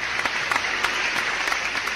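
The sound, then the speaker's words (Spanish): Applause greets the winners of a stationery voucher giveaway: a dense, steady clatter of many hands that holds at an even level for the whole stretch, with no voices over it. “Ahí está el aplauso.”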